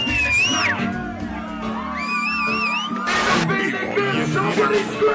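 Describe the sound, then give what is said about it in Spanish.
A crowd whoops and shouts at a live show, a dense, loud wall of cheering and yelling throughout with a sharp burst midway. “Esto es un directo, Mariette, porque escucho a la gente gritar.”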